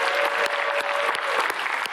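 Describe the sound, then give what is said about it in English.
Congregation applause in a church, a dense and steady wash of many hands clapping for the whole stretch, with sharper claps standing out at a fairly regular pace. “would you give them a big warm round of applause?”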